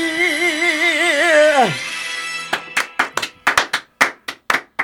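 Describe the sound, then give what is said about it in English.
Sparse, slow applause of about ten separate claps, sharp and uneven, follows a sustained wavering tone that slides downward and fades out. “as you could hear the thunderous applause”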